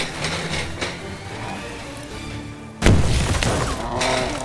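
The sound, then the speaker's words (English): A pipe bomb explodes in a video game: one sudden loud, deep blast with a crashing, shattering edge. Heavy rumbling noise follows it and holds to the end, after quieter sounds of play before it. “Light it, Saul! Light that pipe bomb! I think this is our last one! Well, then make it count! Put it right at its feet! Get down!”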